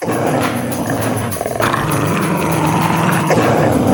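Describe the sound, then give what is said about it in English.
Dogs squabble over a bag of garbage found in the ruins of a trash island, growling, yipping and whimpering in a noisy, continuous scuffle. “you hear them arguing over a bag of garbage that they've discovered in the ruins”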